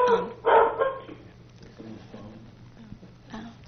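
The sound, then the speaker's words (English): A dog barks in two short, loud bursts near the start, then softer murmuring voices carry on underneath with a few faint noises. “I think that's Donette's dog probably”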